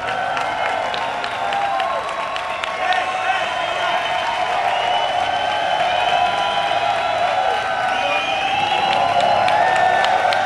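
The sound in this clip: Crowd applause and cheering from people gathered on Paseo de Gracia for a shop opening, a dense, steady roar of clapping and shouts that holds through the whole clip, with voices mixed in.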